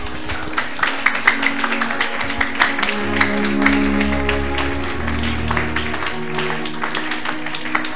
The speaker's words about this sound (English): Let's clap for Jesus.